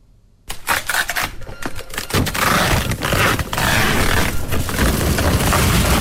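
A printer prints courier shipping labels from online orders at an e-commerce workshop: after a brief silence, a loud, continuous mechanical rattling and clattering runs steadily to the end.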